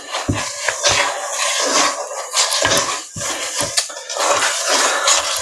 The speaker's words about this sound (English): So now we are going to stir one more time. Ooh, this dough's gotten thicker since I last stirred it.